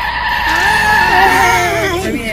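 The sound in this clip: A car braking hard into a skid, with a loud, sustained tire squeal whose wavering pitch sags toward the end over a rough engine roar.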